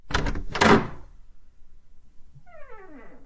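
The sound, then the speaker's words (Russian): An apartment door being opened, with a couple of clattering, rattling bursts in the first second, followed after a pause by a brief tonal cry that falls in pitch. “Денис тихонько открыл дверь в квартиру.”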